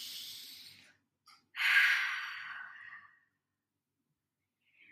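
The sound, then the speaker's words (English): A deep breath is taken during a breathwork session: a quiet, airy inhale is followed after a pause by a longer, louder exhale that fades out, with no talking. “We take a deep breath here.”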